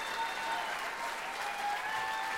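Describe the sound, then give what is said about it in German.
Long applause follows an Indian pianist's music-theatre piano recital: dense, steady clapping that holds an even level throughout without a break. “Der Applaus nach dem Unrecital ist lang.”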